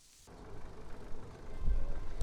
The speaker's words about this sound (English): here's some audio of me riding the bike for the first time.